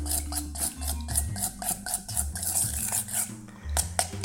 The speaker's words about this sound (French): Alors, on va mélanger rapidement l'huile et le miel. Ça n'a pas besoin d'être homogène.